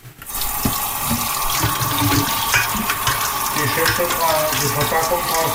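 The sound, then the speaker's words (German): Tap water runs over cherry tomatoes being washed in a sink. The steady splashing hiss starts abruptly and continues evenly for several seconds. “Hier habe ich jetzt die Cherrytomaten. Die werden jetzt auch hier gewaschen.”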